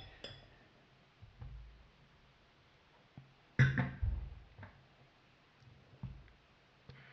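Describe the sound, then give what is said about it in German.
A can of beer with 6.3 percent alcohol is opened and foams over: a sharp crack with a brief burst of fizz partway through, surrounded by faint clinks and rustles in a quiet setting. “dann werde ich diese Dose wohl mal öffnen. Uiuiui. Das will raus.”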